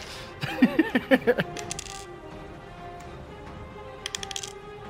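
Dice rolled during a tabletop role-playing game, a quick run of several sharp clattering clicks, then quiet, then a brief second patter of small clicks near the end.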